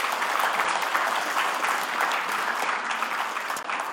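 An audience claps for the musicians after thanks and praise at a gathering. The applause is dense and continuous, an even wash of many hands at a steady, full level from start to finish with no break.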